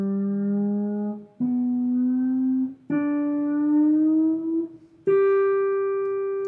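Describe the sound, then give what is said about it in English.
Guitar note sliding up the fifth string from the third fret to the fourth, fifth and seventh frets: four sustained, muted-off notes, each stepping higher in pitch with a short gliding slide between them, played alone. “Sliding from the third fret to the fourth fret, to the fifth fret, to the seventh fret.”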